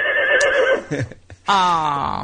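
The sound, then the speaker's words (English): A horse neighs in two loud, quavering high-pitched whinnies separated by a short gap, each with a shaky, wavering tone. “That's a horse.”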